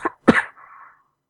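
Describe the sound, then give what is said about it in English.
A slight cough breaks a quiet room: two short, sharp bursts, then a fainter trailing breathy tail that fades out. “slight cough. way to ruin the moment, man.”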